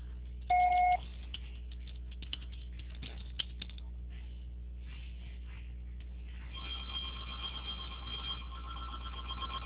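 A single voicemail recording beep sounds, short, loud and high-pitched, then cuts to a low steady line hiss with a few faint clicks.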